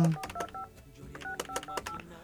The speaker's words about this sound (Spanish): Me iban a decir que estoy equivocado por marcar rápido.